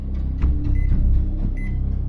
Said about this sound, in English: In a kitchen, a person places an object into a smoky microwave. Noah waits in front of the microwave.